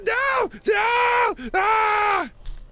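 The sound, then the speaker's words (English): A voice imitates a wounded spellcaster screaming: three drawn-out, loud, strained yells, the last the longest, separated by short breaths. “He just starts screaming,”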